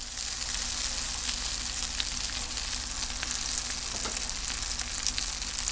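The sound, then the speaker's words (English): Cutlets shaped like veal cutlets, dredged in egg and breadcrumbs, fry in oil with a steady, dense sizzle and scattered small crackles, heard alone without talk. “I'm going to dredge it in egg and then in breadcrumbs, and then we're going to fry them up.”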